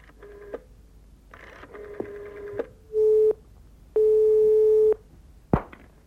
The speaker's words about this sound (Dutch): Goed, ik zal hem bellen.